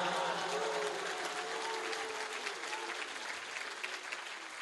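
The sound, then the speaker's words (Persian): An audience claps along to recited Persian verse in dense, steady applause that continues throughout and eases slightly toward the end, with a faint voice underneath. “اگه بخوای دست بزنی باید همه بیتشو دست بزنی.”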